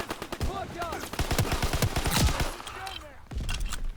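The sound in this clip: Heavy automatic gunfire in a video game, with rapid, dense bursts of shots crackling continuously while voices talk over the fighting.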